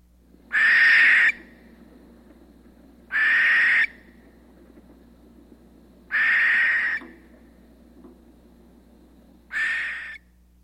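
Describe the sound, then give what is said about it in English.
Barn owl calls: four harsh, hissing screeches, each lasting under a second, spaced a few seconds apart with quiet between them. “And Barn Owl.”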